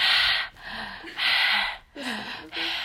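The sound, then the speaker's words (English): A voice imitates a smoker with damaged lungs breathing heavily, giving several loud, rasping, laboured breaths in a steady rhythm with short pauses between them. “because she was a smoker, every time she would do that, she would just breathe very, very heavily because her lungs were damaged.”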